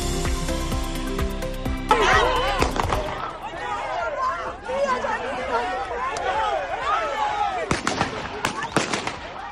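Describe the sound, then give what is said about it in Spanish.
Gunfire during a daylight shootout between two families in a city square: several sharp cracks, some near the start and a cluster near the end, among excited voices. “Tiroteo impresionante.”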